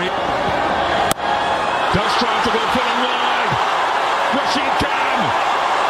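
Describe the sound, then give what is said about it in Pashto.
Fans cheer in a stadium after Gujarat Titans win an IPL cricket match on a last-ball six. A loud, continuous roar of many voices with one sharp thud near the start. “په لوبغالی کې د ګجرات ټایټانز لوبډلې د بریا له امله د مینوالو د خوښۍ شور.”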